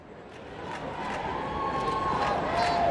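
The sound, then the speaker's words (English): Fans cheering the U.S. women's soccer team at a New York City parade celebrating their World Cup win: a broad crowd roar that swells steadily louder. “That's the sound of fans cheering on the U.S. women's soccer team at a parade in New York City on Wednesday morning in honor of their World Cup win on Sunday”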